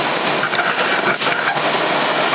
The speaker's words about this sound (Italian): Si sente la ventola del condizionatore.